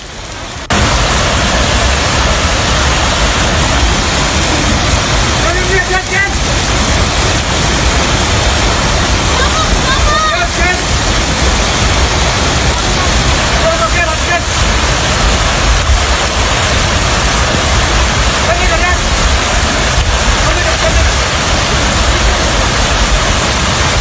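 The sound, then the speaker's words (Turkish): Floodwater rushing past during the rescue of people trapped in a car, recorded on a mobile phone: a loud, dense, unbroken roar of churning water that holds steady throughout. “Aracın arka camı kırılarak içerideki vatandaşlar dışarı çıkarıldı. Selde mahsur kalanların kurtarıldığı o anlar cep telefonu kamerasına yansıdı.”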